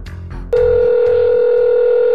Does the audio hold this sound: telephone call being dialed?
yes